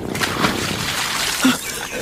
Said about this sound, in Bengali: তার মানে তার মানে ও ওই সমুদ্র দিঘিতে ঝাঁপ দিল